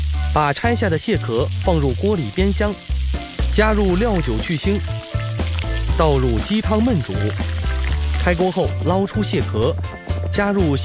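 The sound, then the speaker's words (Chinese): Scallions and ginger fry in hot oil in a wok, giving a steady crackling sizzle that runs beneath a continuous talking voice. “锅内加油，下入葱姜”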